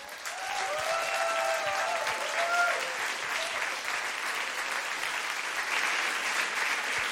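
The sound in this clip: Warm, sustained applause from a live audience, steady and even in loudness for about seven seconds.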